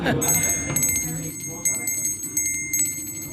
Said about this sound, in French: Vous avez une petite clochette, c'est pourquoi? Pour annoncer le prochain round.